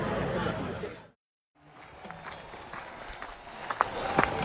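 Footsteps of a person running through a park: a few soft footfalls in steady rustling noise, following a brief silence after a loud stretch of noise.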